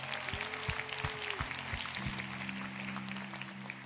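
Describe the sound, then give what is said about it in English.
Congregation applauding in a church: a steady patter of clapping at a modest level, with a few sharper claps standing out near the beginning before it evens out. “So, one more time, as the family here at the Bridge, can we put our hands together and welcome people into God's family today?”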